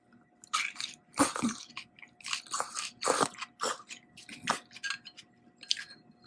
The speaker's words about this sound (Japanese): 今もやし食べてまんねん。